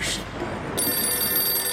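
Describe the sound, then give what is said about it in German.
A telephone rings with a short bright burst, then a steady, sustained tonal ring after a brief pause. “O, jede telefon.”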